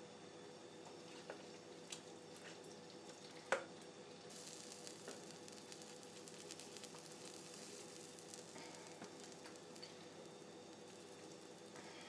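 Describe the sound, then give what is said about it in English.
Beans boiling in a pot on medium heat while being stirred: a faint, steady bubbling hiss with soft scraping and one sharper knock partway through. “Now I'm stirring it around, but I'm wondering, I'm just going to keep it on medium, I think, and just let it boil another 20 or so minutes.”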